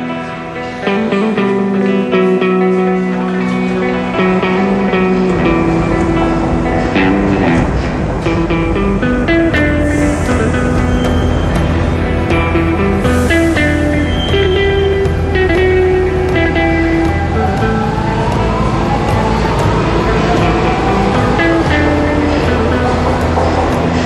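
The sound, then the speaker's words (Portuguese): Trains at a Lisbon metro station as passengers board and leave: a loud, steady rumble runs throughout, and a tonal motor whine climbs in pitch late on. “Ei-los, os lisboetas, entrando e saindo dos comboios, enquanto a voz amplificada do comando da estação os avisa para terem cuidado com as portas.”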